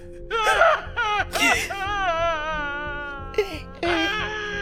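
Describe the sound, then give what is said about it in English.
Someone sobs very loudly, with gasping catches and long, quavering high wails in one continuous outburst. “Sounds like someone sobbing very loudly.”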